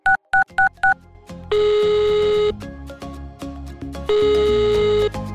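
Telephone keypad tones as key 1 is chosen on an automated phone menu: four short, sharp dual-tone beeps in quick succession, followed by two longer, steady, buzzier tones separated by a pause.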